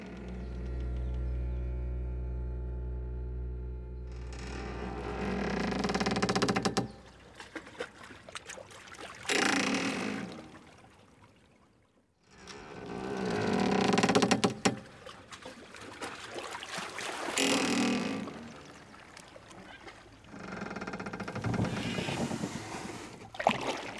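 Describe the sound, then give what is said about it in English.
Water rushes past a boat moving forward, a noisy hiss and wash that swells and fades in several surges, with a low steady drone at the start and a brief drop to near quiet midway. “Water slipping past, a boat lunging forward, leaving.”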